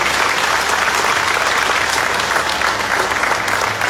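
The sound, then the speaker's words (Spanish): Loud applause from a crowd at a meeting, a dense, steady clatter of many hands clapping that holds at an even level for about four seconds. “Y quiero pedir un fuerte aplauso para el hermano Michael Rojas”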